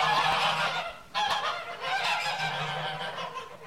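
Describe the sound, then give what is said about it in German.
About 75 geese crowded together in a barn stall on straw, honking in loud overlapping calls that dip briefly after about a second and then resume as a dense, continuous clamor. “Einen Augenblick lang drängen sich die 75 Gänse verschreckt in einer Ecke des Stalls zusammen.”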